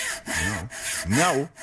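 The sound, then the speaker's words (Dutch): A hand saw cutting through a tree gives several rasping back-and-forth strokes in a steady rhythm, each stroke a dense scratchy burst with a brief pause between. “Nou, ja, die boom gaat er bijna aan. De zaag, ja, nee... Oh. Jongen. Ja! Het is gelukt.”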